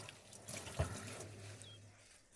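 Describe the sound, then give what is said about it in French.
Faint running tap water as a tied bunch of herbs is rinsed quickly under cold water, a soft steady hiss with a brief knock partway through. “Je le rince rapidement à l'eau froide, tout en le laissant attacher.”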